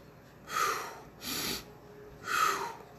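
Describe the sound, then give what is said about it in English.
Short, shallow half breaths from a person forcing themselves to breathe: three quick, airy bursts, each under a second, quiet and evenly spaced, with no talk. “like that, like a half a breath. And I was like kind of forcing myself to breathe.”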